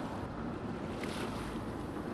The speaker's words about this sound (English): Then came the sudden roar of the outboard as he motored away, leaving me in the icy water, kicking and flailing, drowning.